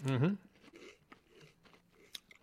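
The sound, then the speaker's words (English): Biting into and chewing a chocolate cream-filled wafer: a brief vocal sound at the start, then faint, soft crunching and mouth noises with a few sharper crisp clicks. “When we bite into it, it's going to have, like maybe frosting-like material in it. You know yeah, what I mean? It's got choco cream.”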